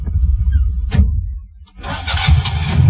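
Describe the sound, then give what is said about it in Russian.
A Zaporozhets car engine coughing and sputtering as it starts, an uneven low rumble that briefly dips before picking up into a rougher, louder running noise. “Мотор закашлял, машина дернулась.”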